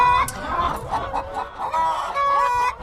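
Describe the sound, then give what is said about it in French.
Hens clucking in a henhouse with straw bedding: several birds cluck and squawk continuously in overlapping, moderately loud calls. “La poule est quand même un animal assez peureux, qui est très curieux, mais qui malgré tout est très peureux, puis surtout qui est cardiaque. Elles sont sur une espèce de paille qu'on change toutes les semaines.”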